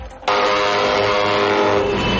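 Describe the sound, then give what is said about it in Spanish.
Engine drone of buses arriving in Ibagué, Colombia, carrying an indigenous minga from Cauca: after a brief quieter start, a loud, steady, humming engine tone with clear harmonics sets in abruptly and holds. “Pues ese es el sonido de los buses que hasta ahora arriban a la ciudad musical”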